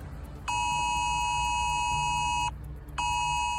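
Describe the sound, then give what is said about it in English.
A UK government emergency alert test tone sounds from a mobile phone: a loud, steady, bright electronic tone holds for about two seconds, breaks off briefly, then starts again. “everyone in the UK will be getting a test notification that sounds just like that from the government, even if your phone is on silent.”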